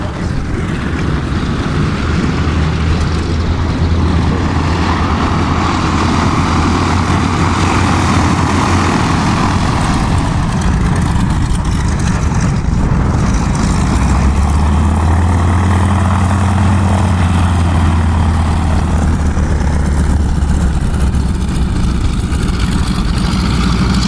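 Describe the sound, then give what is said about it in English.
Propeller aircraft engines drone on the flight line of a huge airport, forming a loud, continuous roar with a steady low hum that shifts partway through. No voices are heard. “my objective was to get out on the flight line and get this audio.”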